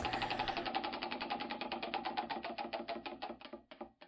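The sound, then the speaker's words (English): Spinning wheel turning: a rapid train of sharp ticking clicks that holds steady, then slows and spaces out toward the end as the wheel winds down, with no talk. “I think the wheel's got a few spins left in it, so. Awesome. All right, I'm going to hit it up. So, wheel, do your thing.”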